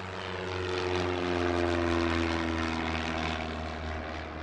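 Propeller airplane engine on the tarmac of a small airport, a loud, steady droning hum with strong low tones that swells slightly toward the middle and holds throughout, with no voices.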